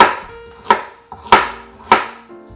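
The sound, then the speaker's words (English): Knife chopping vegetables into medium-sized pieces for a vegan black bean soup: a few sharp, crisp cuts spaced irregularly, each ending in a short decaying ring, with quiet gaps between them and no talking. “So we'll just slice up the vegetables”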